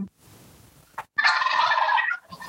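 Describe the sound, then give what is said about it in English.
Chickens clucking in an advert: a short click, then one loud, harmonic squawking burst lasting about a second, with quiet noise before it. “oh, it's an ad. Oh, I thought you had chickens at your apartment.”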